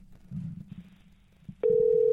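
A telephone call ringing out on the line: after a few seconds of faint low murmur, a steady pitched ringback tone cuts in abruptly and holds to the end.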